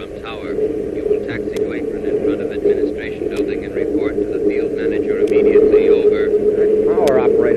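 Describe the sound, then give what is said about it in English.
An airplane taxiing on a runway gives a steady, droning engine hum that holds level throughout and grows slightly louder toward the end, with voices talking over it. “Looks like he's going to taxi right up to the same place we are.”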